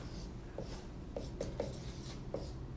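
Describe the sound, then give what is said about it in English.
Drawing on a board produces faint, short, squeaky strokes at an uneven pace, each a brief scrape over a steady low hiss, with no talk. “So I'm drawing a plus R on the board.”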